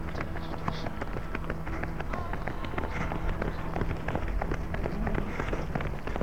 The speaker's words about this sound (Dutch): Het moet nu snel. Er wordt gerend door een groot aantal mensen.